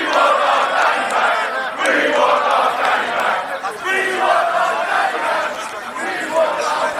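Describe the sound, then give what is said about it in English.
A crowd of demonstrators shouts and chants outside a police centre in Basingstoke, protesting an activist's arrest. Loud massed voices overlap in a continuous roar, with chanted phrases rising above the general din. “That was the sound of demonstrators outside Basingstoke's police centre protesting the arrest of Daniel Thomas, better known as Danny Tomo.”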